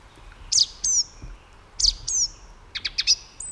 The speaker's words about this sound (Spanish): Y por detrás casi nada, ¿no? El zorzal cantando solo.